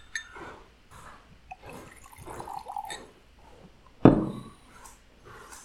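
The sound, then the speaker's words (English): A bottle of single malt scotch is opened and the first drink poured: soft liquid trickling and gurgling, light glassy knocks, and one sharp, louder clack, all fairly quiet. “And now we will do the ritual, which yes. is the opening and the pouring of the first”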